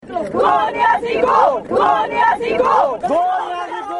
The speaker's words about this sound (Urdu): وزیر اعظم عمران خان کے خلاف لگنے والے یہ نعرے کسی جلسے کے نہیں، بلکہ پارلیمنٹ ہاؤس کے باہر وفاقی بجٹ کے اعلان کے بعد پاکستان پیپلز پارٹی کے اراکین پارلیمان کی ہیں۔